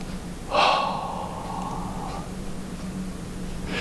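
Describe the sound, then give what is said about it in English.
A single deep breath drawn in sharply: a loud, airy gasp that eases into a steady, breathy rush lasting about a second and a half, over a faint low hum. “Deep breath.”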